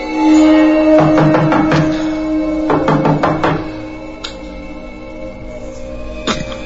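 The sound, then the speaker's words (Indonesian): Knocking on a front door comes in two quick bursts of several raps each, sharp and fairly loud over a low steady hum, followed by a lone faint tap near the end. “suara ketukan pintu itu memecahkan ningan. Aku pun beranjak menuju pintu depan.”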